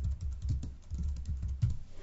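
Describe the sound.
Rapid clicking of typing on a computer keyboard while writing a text, many quick, light keystrokes in an uneven rhythm over a low steady hum, with no talk.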